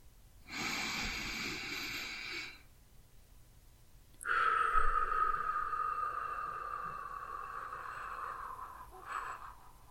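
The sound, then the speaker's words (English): Slow breathing exercise: a soft two-second breath, a short pause, then a long, steady exhale through pursed lips lasting about five seconds, a breathy hiss with a faint whistling tone. “You will hold each breath for 1 second and then let it out slowly through pursed lips, so you make a soft noise as you expel the air. It will sound like this.”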